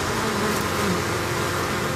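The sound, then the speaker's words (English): Honey bees clustered on a honeycomb hive frame give off a dense, continuous buzzing, steady and fairly loud without pauses or voices. “Sort of on this frame, bees climbing on top of other bees, these clusters of bees perched on their honeycomb.”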